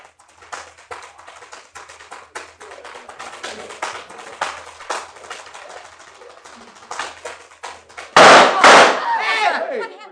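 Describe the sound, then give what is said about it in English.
A loud gunshot in a radio drama cracks out suddenly after a long run of quick, crisp tap-dance clicks performed with no musical accompaniment. “What happened? He's been shot. Someone shot Claude Berkeley. He's dead.”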